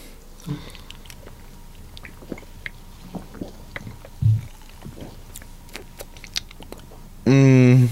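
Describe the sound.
Chewing soft, gooey gummy fish candy: many small wet clicks and smacks in an irregular rhythm, with one brief louder burst partway through. A voice starts right at the end.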